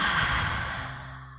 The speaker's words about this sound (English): Take one last deep inhale through your nose. And exhale audibly